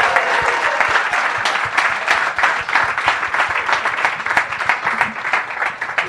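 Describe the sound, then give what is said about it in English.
Enthusiastic audience applause at a live comedy show as a comedian is welcomed to the stage: dense, continuous clapping holds at a strong level, with a few faint voices in the crowd. “Please, welcome to the stage, the wonderful Danny Garnell!”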